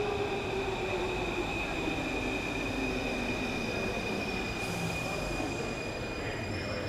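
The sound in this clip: A metro train arrives with a continuous heavy rumble and a high, steady squeal of wheels on rails throughout.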